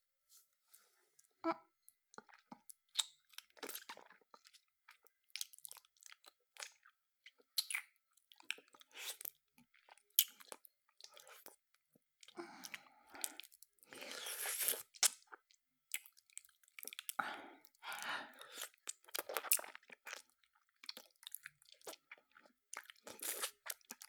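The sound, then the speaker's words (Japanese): ASMR licking with the tongue: many wet, sticky smacks, clicks and slurps in an irregular, close stream, mostly faint with brief louder bursts and short pauses between them. Nobody speaks. “ちょっとペロペロしてみようかなと。いただきます。”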